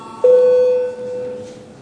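An electronic bell signal calling deputies to a vote in the Latvian parliament, sounding as a single steady mid-pitched tone held for about a second before fading, heard alone without speech.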